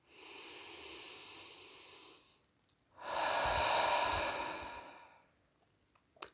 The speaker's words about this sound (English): Let's take a breath.